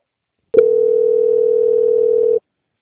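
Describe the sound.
A steady single-pitched telephone line tone plays while a call is being transferred. It starts with a brief click and then holds alone, unchanging, for just under two seconds.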